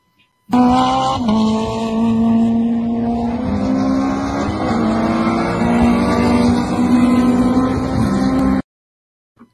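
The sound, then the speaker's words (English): A race car with a freshly rebuilt, newly fitted K24 engine roars loudly for about eight seconds, its engine note shifting in pitch as it drives on, then cuts off abruptly. “his engine was rebuilt. So there was a new K24 engine fitted on Wednesday. It was then mapped and sorted that week.”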